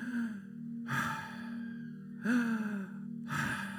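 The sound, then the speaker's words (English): Breath released after being held during a guided breathing exercise in a sermon, heard as three soft, breathy exhales over a steady low droning tone. “You can let out that breath if you've still got it in you right now.”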